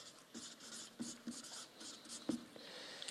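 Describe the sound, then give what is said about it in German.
Handwriting as something is jotted down, a run of short scratchy pen strokes with light taps, coming in an irregular rhythm at a quiet level with no talk over them. “Ich schreibe mal hin, erbaut sich selbst.”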